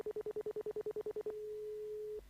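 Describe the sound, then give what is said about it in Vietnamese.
A quick run of many evenly spaced keypad tones as a telephone number is dialed, then one steady held tone that stops abruptly. “Cháu bấm gọi rồi đây ạ.”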